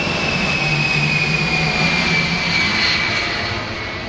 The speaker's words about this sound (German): Das Flugwetter Richtung Russland ist gut. Die Airwax-Maschine hebt ab.